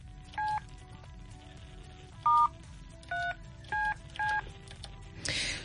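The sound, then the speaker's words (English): Telephone keypad tones as a number is dialed: five separate, clear beeps at uneven intervals, followed by a short burst of noise at the end. “So I'm going to, dial Komocho now.”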